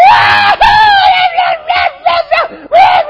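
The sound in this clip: A crowd screaming and cheering as the Boston Marathon gets underway, loud, high-pitched massed voices surging in several separate bursts with brief dips between them.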